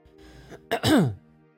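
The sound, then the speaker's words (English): Throat clearing by a person, a single short rough burst that turns into a voiced, falling grunt-like tone, fairly loud against a quiet background with no talk. “I clear my throat to make my presence known to them”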